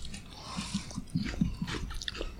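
Someone chews a mouthful of dry pumpkin spice cereal flakes, faint crunching bites that come in a loose, irregular rhythm over a low background.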